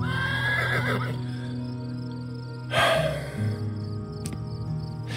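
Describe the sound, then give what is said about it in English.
A horse moves about in its stall in a barn, whinnying and shuffling with hoof thumps, and a louder snorting burst comes partway through. “The horse tromped around in its stall as I passed.”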